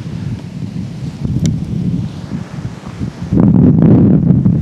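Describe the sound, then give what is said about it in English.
Wind blowing outdoors, a continuous low rumbling that buffets the microphone in uneven gusts and grows noticeably stronger toward the end. “And hood up to avoid the wind again.”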